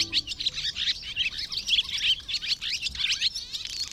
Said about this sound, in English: If so, the chattering of this swallow probably is not music to your ears.